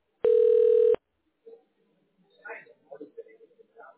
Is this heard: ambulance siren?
no